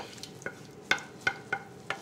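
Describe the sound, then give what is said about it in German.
A wooden spoon presses and stirs tomato sauce in a pan. Several short, soft knocks and squelches come at an irregular rhythm, with a quiet wet background between them. “Mit dem Kochlöffel so ein bisschen durchdrücken.”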